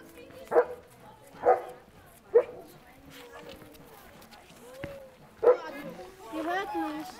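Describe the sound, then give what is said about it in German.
Farm dogs bark in greeting at a farm used for animal-assisted work with children: a few sharp, mid-pitched barks spaced about a second apart, then another later, over a background of voices talking. “Die Begrüßung durch die Hofhunde ist ein festes Ritual.”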